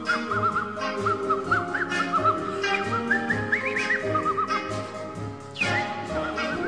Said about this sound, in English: Plus, she could whistle. Oh, really? Yeah, check her whistling out.